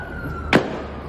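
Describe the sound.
A single sharp gunshot from an exchange of gunfire between police officers and a shooter on a university campus: one loud, brief crack over a steady background hum and a thin high tone.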